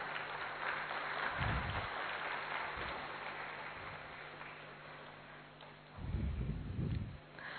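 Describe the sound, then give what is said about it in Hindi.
Audience applause at a ceremony honoring a young woman: steady, fairly faint clapping that fills the whole stretch, thinning slightly in the middle and swelling again near the end. “हम फिर से तालियों से उसका उमंग उत्साह बढ़ाते हैं”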